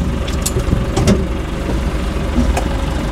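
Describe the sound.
A car engine rumbles low and steady while driving along a road lined with tall reeds, with a few faint higher clicks and whines on top and no talk.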